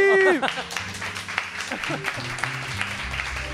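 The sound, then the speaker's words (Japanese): Audience applause at a live show after someone eats on stage: steady clapping for a few seconds, with a brief tone at the very start and music playing underneath. “拍手ありがとうございます”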